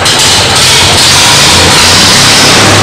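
A vehicle engine idles with a damaged muffler, giving a loud, steady, unbroken rumble that stays level throughout.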